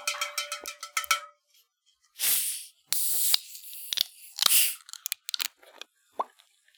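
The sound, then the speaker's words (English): Bottles of Faygo Red Pop and vanilla cream soda are cracked open, giving a few sharp hissing bursts of escaping fizz amid light clinks, crackles and glassy taps, with quiet gaps between them. “And I have a genuine delicious vanilla cream soda. Nice. nice. Let's crack these bitches open.”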